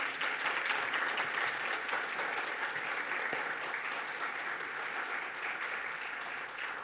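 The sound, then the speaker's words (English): Church audience at Fort Caroline Baptist Church applauding to welcome a retired sheriff's office chief: steady, full clapping that tapers slightly toward the end, with no talk over it. “Let's give him a hand.”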